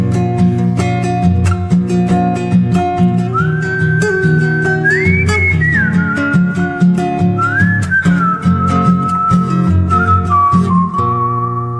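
A person whistles while riding off at a gallop on a horse. The bright whistled melody glides up and down over steady instrumental music throughout, with no hoofbeats evident.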